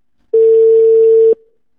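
Ringback tone of an outgoing telephone call: a single loud, steady mid-pitched tone sounds for about a second, then cuts off into silence.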